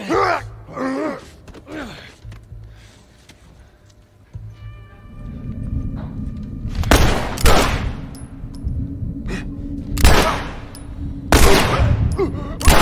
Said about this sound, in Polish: Nie były to może najpiękniejsze strzały w życiu.